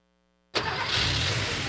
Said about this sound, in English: That's the sound of an engine running on the strength of Castrol Edge.